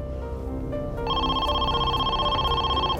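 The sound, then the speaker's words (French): A telephone ringing: one steady electronic ring with a bright, layered tone that starts about a second in and holds for around two seconds over a dense, low background. “À 21h, la sœur de Donald répondit au téléphone.”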